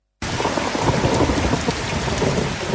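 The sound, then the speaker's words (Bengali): Heavy rain and thunder during a stretch of continuous rain that brought hill floods and landslides, a loud, dense roar of downpour that begins abruptly after a moment of silence and carries on steadily with low rumbling beneath. “টানা বৃষ্টি, পাহাড়ি ঢল ও পাহাড় ধসে দেশের দক্ষিণ পূর্ব ও উত্তর পূর্বাঞ্চলের সাত জেলায় দেখা দিয়েছে বন্যা পরিস্থিতি।”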